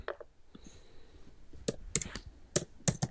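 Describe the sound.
Keys tapped on a computer keyboard while typing a Google search: a few soft clicks at first, then several sharper, louder keystrokes in quick succession.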